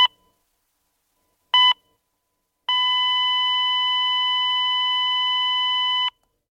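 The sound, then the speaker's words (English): A heart monitor beeps as a heart stops, giving two short, clean electronic beeps and then a long, unbroken steady tone lasting about three seconds, with nothing else heard. “That is the sound of a heart stopping, and hearts can stop when you least expect it.”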